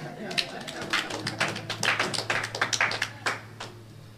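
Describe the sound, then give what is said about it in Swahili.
Irregular hand clapping from a church audience applauding themselves: many sharp, separate claps at uneven spacing, rising and falling in strength rather than merging into one smooth roar. “Jipigie makofi.”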